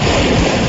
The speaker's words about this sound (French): Ça, c'est le bruit de l'eau.